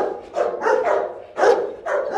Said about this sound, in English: a male Belgian Malinois, a breed that looks a little like a German Shepherd